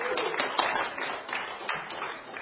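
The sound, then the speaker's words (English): Audience applause breaks out after a question, a dense, steady clatter of many hands clapping that holds at an even level for the whole stretch with no clear pauses. “Give him a round of applause.”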